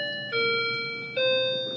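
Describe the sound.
A clock chimes in two clear ringing strikes, each a bright bell-like tone at a slightly different pitch, sustaining and slowly fading together at a quiet level.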